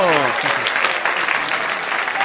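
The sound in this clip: A studio audience applauds in a dense, steady wash of clapping, with a voice heard briefly at the very start.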